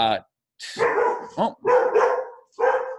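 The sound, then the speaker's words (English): A dog barks excitedly in a few loud, rough bursts. Some are short and some are drawn out, and they come at an uneven, agitated pace. “sorry, dog's going crazy.”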